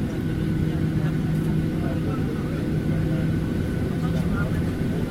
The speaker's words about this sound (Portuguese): Petrolina, vamos nos preparar para a decolagem.